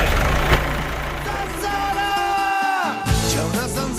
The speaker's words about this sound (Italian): Mi accendo la macchina e me ne vado.